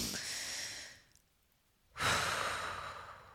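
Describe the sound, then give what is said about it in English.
A deep breath: a long, airy inhalation, then a short pause and a slow exhalation, soft and unvoiced with no talk. “All right, take a breath.”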